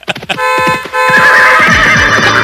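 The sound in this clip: A horse neighs loudly after a few sharp clip-clop hoof strikes. The long, quavering whinny holds steady and bright for over a second before trailing off, with no voices.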